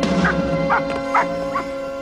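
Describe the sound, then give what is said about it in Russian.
A dog with its paws on a vertical rung ladder against a house barks four times in a steady rhythm, short mid-pitched barks set over a constant tonal background. “Джерри Ли кладет лапы на вертикальную лестницу с перекладинами и лает.”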